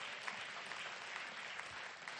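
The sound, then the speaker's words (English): An audience claps hands together in praise at a worship service, producing a steady, dense wash of applause that holds at an even, fairly soft level throughout. “Let's clap unto the Most High.”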